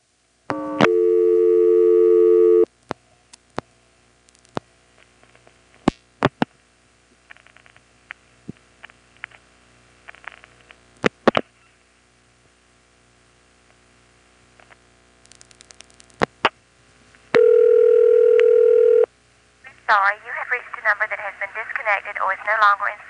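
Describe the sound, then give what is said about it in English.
A telephone trunk on step-by-step switching equipment is seized by flashing the hook and then pulse-dialed 1-0: a steady tone, scattered sharp clicks in short bursts, a second brief tone, then a recorded voice at the end. “Let's try getting onto that trunk again by the same method, flashing just as it's seized. And then once we're on the trunk, we'll dial 1-0.”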